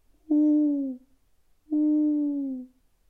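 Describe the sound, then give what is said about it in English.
An owl hoots twice in the distance at night while campers lie in a covered wagon. Two clear, long, low hoots sound alone, each holding steady before sliding slightly down in pitch, separated by a short silence. “And I could hear an owl in the distance.”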